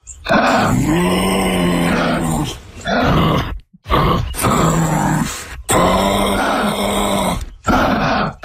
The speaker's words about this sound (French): C'est silencieux, mais ça peut faire des vocalises et des grognements. Alors en exclusivité, voici le cri du kangourou.